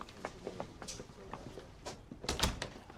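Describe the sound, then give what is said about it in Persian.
A door being closed: a few soft knocks and rattles lead up to a louder cluster of thuds near the end, heard against a low, steady background. “درو ببند.”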